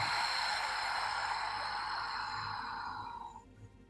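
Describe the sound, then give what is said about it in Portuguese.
A long, slow breath out through the mouth during a guided breathing exercise, a soft airy rush lasting about three and a half seconds that gradually fades away. “puxa mais um pouco de ar. Expira pela boca.”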